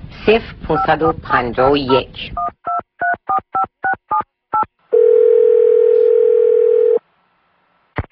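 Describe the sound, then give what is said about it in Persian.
Telephone keypad tones and a dial tone as a call is placed to a home in Nishapur: a voice talks first, then a quick run of short beeps, then a long, steady, unbroken tone that stops abruptly. “حالا من به منزل خیام زنگ میزنم ببینم ایشون چه پیغامی در روی ماشینشون گذاشتن.”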